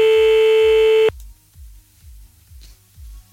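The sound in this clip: A telephone tone after the caller hung up: a loud, steady electronic beep holds for about a second, then cuts off abruptly, leaving soft, low, rhythmic thumps that keep pulsing underneath.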